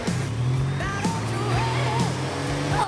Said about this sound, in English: They pull off and drive up to the junction that leads back onto the main road.